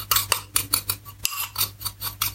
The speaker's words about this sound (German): Drücke ich einfach mit dem Löffel an die Schüsselwand.